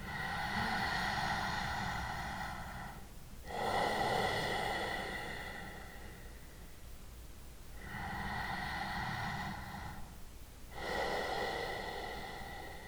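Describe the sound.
Slow breathing in and out through the nose with a constricted throat, a soft whispering rush like ocean waves. Four long breaths flow in an even rhythm, each separated by a brief pause, with no talking.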